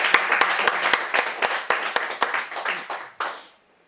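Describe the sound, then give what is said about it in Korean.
Congregation applause in a church service: a steady patter of many hands clapping together, with sharp claps through it, tapering and stopping near the end. “우리 하나님께 우리 영광의 박수 올려드리겠습니다.”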